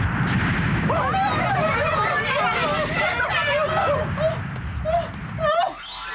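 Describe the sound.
Sailor Mars's "Fire of Mars" fire attack from the Sailor Moon anime roars as a loud, sustained fiery blast with a voice ringing through it, then cuts off abruptly near the end.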